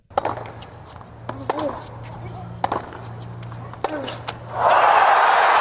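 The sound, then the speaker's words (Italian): Match point rally between Jannik Sinner and Taylor Fritz in a tennis match: several sharp racquet strikes ring out at uneven intervals over a low crowd murmur, then a loud burst of cheering and applause takes over. “poi ha nuovamente strappato il servizio a Taylor Fritz prima di chiudere con il match point che riascoltiamo.”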